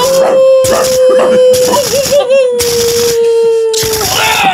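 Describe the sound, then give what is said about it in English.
Dogs howling in a video game shootout: a steady, wavering howl-like tone runs beneath repeated loud, harsh bursts across the whole stretch. “Shoot those dogs.”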